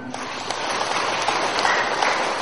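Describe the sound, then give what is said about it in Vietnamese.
Applause from a gathering at a Buddhist temple on a Sunday: many hands clapping in an even, fairly loud patter throughout. “À, quý vị, như vậy chúng ta hãy tự hoan hô một tràng pháo tay.”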